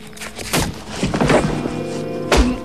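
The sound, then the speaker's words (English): A shotgun strikes a man on the back of the neck in a dramatic film scene: a few dull, heavy thuds with scuffling between them, over a low sustained background. “Scorpio pads up behind him, lifts his shotgun, and strikes Harry on the back of the neck.”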